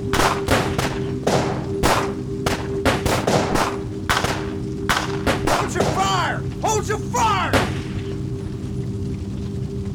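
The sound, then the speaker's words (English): Gunfire from several police officers' guns on a riverbank, many sharp shots in quick, irregular succession forming a loud volley that thins out and stops near the end. “one of the officers drew his gun and fired, hitting Clyde square in the chest. As soon as he did, every officer followed suit.”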